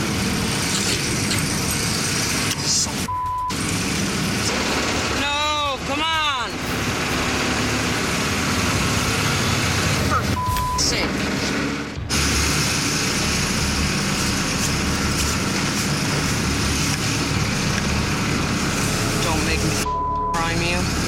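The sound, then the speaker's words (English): A pump pushes fuel through 92 feet of fuel line, making a loud, continuous motor drone that runs unbroken for about twenty seconds. “Right now, I'm trying to pump fuel through 92 foot of line. Usually, this 92 foot of line is primed. That means it's full of fuel, so you already have the suction to pump.”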